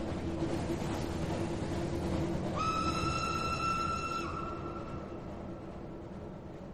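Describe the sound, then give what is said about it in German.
Train wheels roll along rails under a cattle-wagon transport: a steady broad rumble throughout, with a sustained high whistle tone for about two seconds midway, then the rumble slowly fades. “Nur immerfort rollen die Räder Schienen entlang zu Folter und Untergang.”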